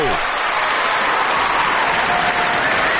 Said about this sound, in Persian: بزن دست قشنگرو.